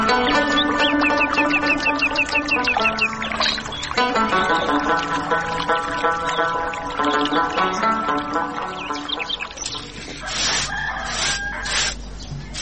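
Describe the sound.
Chickens cluck in a busy, continuous flurry, with rooster-like crowing mixed in. The calls overlap loudly for the whole stretch.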